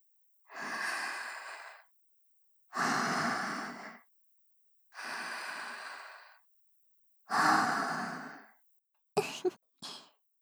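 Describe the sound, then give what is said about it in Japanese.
A woman breathes out close to the listener: four long, soft exhalations at even intervals, then two short, quick puffs of breath. “今君は私の吐いた息を吸って呼吸してるんだね。”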